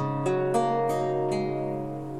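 Plucked strings of a fretted instrument in a transitional tuning similar to a lute or guitar, sounded one after another from low to high. A few clear plucks ring and overlap, quiet and alone.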